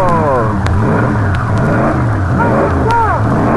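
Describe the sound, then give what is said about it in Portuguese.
A powerful Alfa Romeo race car engine running before a 1947 race: a loud, continuous rumbling drone with a few brief revs that sweep up and down in pitch. “Uma potentíssima Alfa Romeo, a máquina com que Chico Landi disputará o sensacional Trambolim do Diabo de 1947.”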